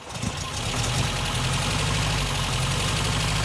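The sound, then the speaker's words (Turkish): A car engine, started with the ignition key and running on only three of its four cylinders, idles with a steady low rumble and an uneven, knocking pulse throughout. “Şu anda 4 silindirde çalışmıyor. Hayır. İlk seferde çalışıyor ama 4 silindirin yalnız 3'ünde.”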